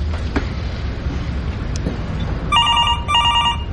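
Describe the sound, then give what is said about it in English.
Mobile phone ringtone going off during a quiet art exhibition: a bright, warbling electronic trill that starts partway through, in two short ringing phrases over a steady low background rumble, with no voices. “Oh, that's my phone.”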